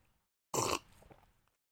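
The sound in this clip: A short, loud slurp of tea, followed by a quieter gurgling tail that fades out, then a brief click at the very end.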